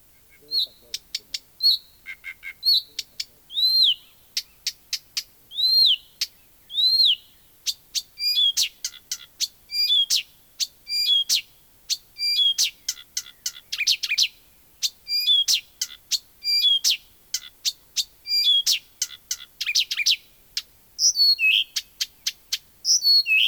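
A Blyth's reed warbler sings a long, continuous song of varied high, sweet phrases and quick chirps. Many short notes are strung together with brief pauses throughout.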